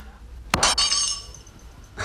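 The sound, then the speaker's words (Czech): Glass breaking into shards: a sharp, loud crash followed by bright tinkling and ringing fragments that fade, then a second brief clatter near the end. “Střepy znamenají štěstí.”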